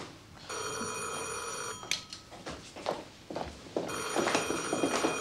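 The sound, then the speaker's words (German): A telephone rings late at night with a long, bright trilling ring, breaks off through a stretch of scattered knocks and shuffling, then rings again to the end. “So spät? Wer ruft jetzt noch an?”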